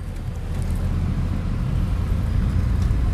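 A car is put into gear and driven in wintry weather with the windshield defrosted, giving a steady low engine and road rumble as a constant drone with no voices.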